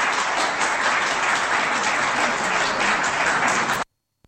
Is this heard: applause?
yes